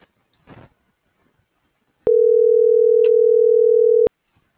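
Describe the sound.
Telephone tone heard while dialing a call: a single steady, mid-pitched tone that holds for about two seconds, preceded by a brief soft rustle in otherwise near silence.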